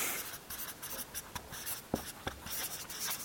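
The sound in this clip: Pen writing on paper: faint, scratchy strokes in an irregular, continuous rhythm, alone without talk.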